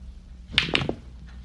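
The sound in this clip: Billiard shot in a pool room: a few sharp, hard clacks of balls striking in quick succession, standing out briefly against a quiet background before the room settles again.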